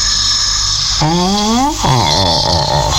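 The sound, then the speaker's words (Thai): Sleeping dog snoring, two long, loud drawn-out snores over a steady background hum. “อ๋อเสียงหมามันหลับโธ่นึกว่าอะไร”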